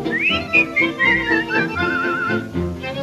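A cheerful waltz melody whistled alone, its bright, clear notes stepping up and down in short phrases, then settling into a longer wavering note near the end.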